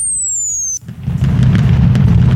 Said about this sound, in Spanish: estamos aquí echando cohetes de gusto, mira.